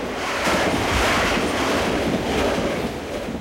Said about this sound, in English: As dawn breaks, a bridge carries the train over a wide river.